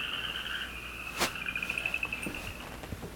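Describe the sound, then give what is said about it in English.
A southeastern chorus frog calls with a rapid series of clear, metallic clicking pulses, like a finger run over a comb. A steady high-pitched insect-like drone runs underneath. “Again, it's the southeastern chorus frog here, running your finger over a comb, but it's very clear and metallic.”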